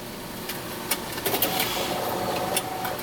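Car engine pulling up to a drive-thru, a low steady rumble with a few light clicks and ticks over it.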